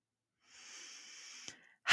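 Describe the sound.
A single deep breath, soft and airy, drawn for about a second, then a brief click and a sudden louder burst right at the end.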